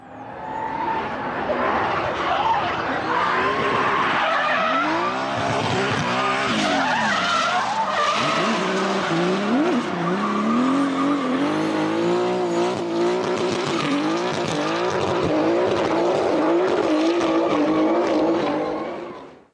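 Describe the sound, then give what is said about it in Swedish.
A BMW M50 engine runs loudly and continuously, with a connecting-rod nut knocking against the oil pan. The engine note sweeps up and down in pitch again and again throughout. “favorit är den här, född och uppvuxen i München och vanlig ute på våra svenska vägar. På just det här exemplaret kanske ni hör att korvstångsmuttern stod och slog mot oljetrågslagret”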